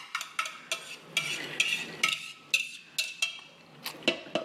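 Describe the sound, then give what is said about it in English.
Mixing wet ingredients into dry ones to form a dough, with a utensil stirring and clinking against the bowl in many quick, sharp taps and scrapes, fairly faint and without talk. “So I'm going to take the wet ingredients and combine it into the dry ingredients and make a little dough.”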